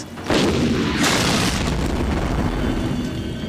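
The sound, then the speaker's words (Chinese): Artillery shell explosion hitting the ground near a tank: a sudden loud boom, a second blast about a second later, then a long dense rumbling roar that holds steady to the end. “炮弹越过我们，击中后方坦克跟前的地面。”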